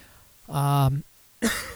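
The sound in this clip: Throat clearing and a cough from a dry throat: a drawn-out, voiced rasp followed by a brief, breathy burst, both fairly faint.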